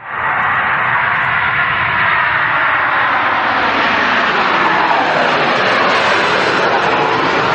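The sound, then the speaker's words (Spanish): An airplane taking off gives a loud, continuous engine roar that holds steady and broad for several seconds, its hiss slowly brightening as the power builds, with no voices. “Cogemos el avión, amigos, y despegamos rumbo a Costa Rica.”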